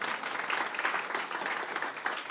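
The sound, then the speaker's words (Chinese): A church audience claps hands together during a worship service, giving steady, continuous applause with no break across the couple of seconds, fairly faint overall. “阿们的拍手，把荣耀归给主，好不好？”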